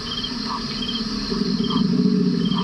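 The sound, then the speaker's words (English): Sound art drifting up from large street grates in Denver: a steady layered hum with a sustained high tone and chirp-like blips that repeat at even intervals, growing slightly louder. “As people walk down the street, the work of audio artist Jim Green greets them, drifting up from the large grates.”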